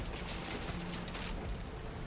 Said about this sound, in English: rain seems to be still coming down. Doesn't seem to be easing up.